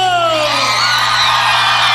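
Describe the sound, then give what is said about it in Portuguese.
A crowd shouting and cheering together in a loud, dense roar of voices that holds steady for the whole two seconds, with a high whoop sliding down in pitch near the start. “Vamos ver o grito da galera aí”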